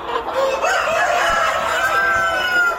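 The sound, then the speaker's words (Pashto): Chickens and roosters crow and cluck at a large farm keeping thousands of native chickens in Ghazni province, Afghanistan; loud, continuous overlapping calls with a few drawn-out crows, no talk. “د غزنی ولایت خوګیانو ولسوالۍ په بندیاهین کلی کې دلته د وطنی چرګانو یو لوی فارم دی چې زرګونه چرګی چرګان پکې ساتل کیږي، پالل کیږي او روزل کیږي.”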